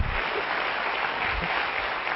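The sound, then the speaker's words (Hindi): An audience claps at a Brahma Kumaris spiritual talk, an even, continuous patter of many hands with no breaks or swells. “अच्छी लगी कि नहीं degree? तालियां तो बजाओ.”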